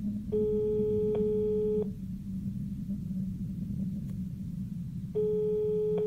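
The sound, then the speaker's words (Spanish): Telephone ringback tone sounds while a dialled call waits for an answer: two long, steady buzzing rings separated by a few seconds of quiet, over a low background rumble. “Marqué a su número y pronto escuché el tono demarcado. Ahora solo restaba esperar a que contestara.”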